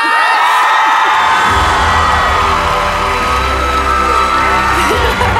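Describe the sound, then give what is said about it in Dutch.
Loud cheering from an audience at a live show as a performer is welcomed: sustained crowd roar with high shouts and whoops layered over a low rumble, holding strong from start to finish. “Geef haar alsjeblieft het applaus dat ze verdient.”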